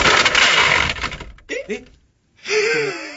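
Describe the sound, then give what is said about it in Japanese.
Beyblade spinning tops launched into an arena and clashing, a loud rattling whir for about a second that then breaks off, with voices talking afterward. “これは二人のベイブレードがぶつかり合って同時に入ってはいけないところにシューされたので、お互いマイナス2ポイントずつです。”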